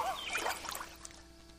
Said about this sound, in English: I'm paddling in a canoe here today.